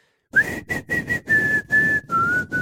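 Whistled melody of a song: a clear, pure tone in several short phrases separated by brief breaks, holding a fairly steady pitch before settling slightly lower near the end, with a soft, fuller sound beneath it.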